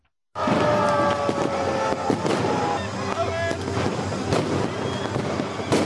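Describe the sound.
Firecrackers pop during a New Year's Eve celebration in a crowded town square in Banja Luka. A few sharp bangs cut through a dense, continuous wash of crowd noise and music.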